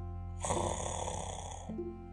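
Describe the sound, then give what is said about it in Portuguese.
A grandmother snoring in a cosy bed gives one long, rasping snore lasting over a second, harsh and buzzy, rising out of a low steady hum and then stopping. “roncando numa cama aconchegante, numa casa sonolenta”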